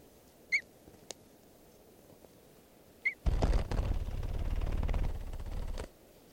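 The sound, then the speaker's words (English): Wild red crossbill calls, type 3, come as a few short, high, chirping notes spaced apart. A loud broad rushing noise then covers the second half. “I hear some crossbills, wild red crossbills. Sound like threes.”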